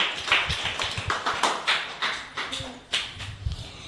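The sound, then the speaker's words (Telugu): Scattered hand clapping from a small group applauding schoolchildren from Gundipalem primary schools in Machilipatnam, Krishna district, after their children's program; uneven, sparse claps with irregular gaps between sharp bursts. “అందరూ claps కొట్టున్నానా మీ పిల్లలకి?”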